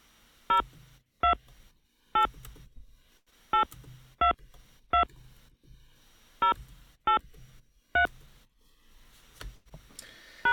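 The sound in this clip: Telephone keypad DTMF tones dialing a phone number into an automated answering system: ten short, bright two-note beeps at uneven intervals, with faint clicks and handling noise between them.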